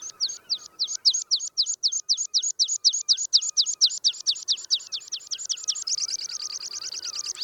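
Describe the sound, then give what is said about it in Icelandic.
A meadow pipit sings a long series of thin, high whistled notes, many in a regular beat, then quickens toward the end into a faster, denser run, loud and clear with no other sounds. “Söngur þúfutitlinga runa af flautukenndum tístum sem fuglinn syngur sífellt hraðar og hraðar þar til söngurinn nær ákveðnum suðupunkti.”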